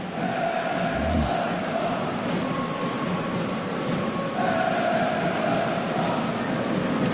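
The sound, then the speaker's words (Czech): Ice hockey fans cheer and chant at a game in Mladá Boleslav, with visiting Litvínov supporters among them. The crowd roar is dense and continuous, with sustained chanted tones running through it. “Domácí diváci a hlavně ten fanklub poskakuje za brankou. Ale slyšet jsou také příznivci litvínovského týmu, kteří dorazili do Mladé Boleslavy.”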